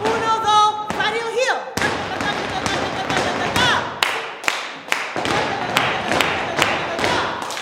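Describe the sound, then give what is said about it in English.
Flamenco percussive footwork from an instructor demonstrating to a studio full of kids. Many sharp, loud heel and toe stamps strike in quick, uneven bursts over a busy tonal background. “An instructor is showing a studio full of kids the classic percussive footwork.”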